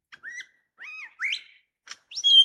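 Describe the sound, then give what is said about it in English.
A currawong, a crow-sized black bird with white flashes in its wings and tail, gives a rich, loud whistled call. Several ringing phrases come in a row, separated by short gaps, some sliding up and down in pitch. “That rich, loud voice, that's the sound of a bird called a carawang, very common here. The size and color of a crow, black, but with white flashes in the wings and tail. Let's listen again.”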